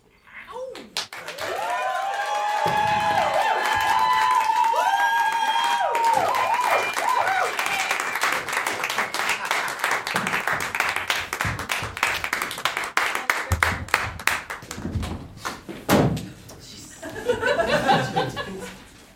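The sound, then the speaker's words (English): An audience at a comedy club applauds and cheers as a sung musical number ends. Dense clapping swells and holds for several seconds, then a host starts speaking as the crowd noise thins out. “Welcome to Quarks, the hottest comedy club in the Delta Quadrant. Give it up one more time for that last act.”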